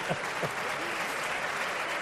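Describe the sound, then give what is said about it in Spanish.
Studio audience applause on a late-night call-in show, an even, dense wash of many hands clapping that stays at a steady level for the whole stretch. “Debe estar toda tu familia. No sé por qué coño te aplauden, pero vamos a ver.”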